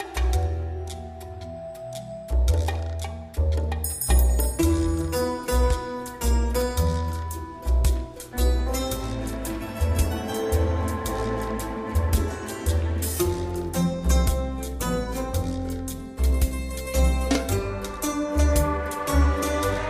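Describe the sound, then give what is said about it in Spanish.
Theme tune of the TV series Dexter: instrumental music with crisp plucked and percussive notes over a steady low pulse, bright accents throughout, playing alone without talk. “Vamos con esta sintonía que a todos os va a sonar y que suena así.”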